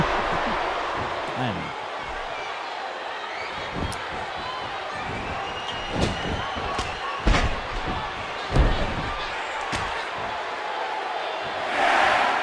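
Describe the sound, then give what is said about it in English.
A wrestler is power slammed onto the ring mat amid a few heavy thuds of bodies hitting the canvas, over a constant crowd roar, with a commentator talking throughout. “Now with a huge power slam on the Stinger.”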